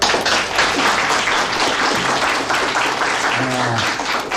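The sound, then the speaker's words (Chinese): Applause from a group honoring people praised as heroes, a continuous crackling wash of many clapping hands, with a voice briefly surfacing near the end. “你们就是英雄， 为你们鼓掌。”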